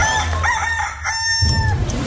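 A rooster crows once in a single drawn-out, clear call that rises and then trails off, fairly loud and with no voices over it.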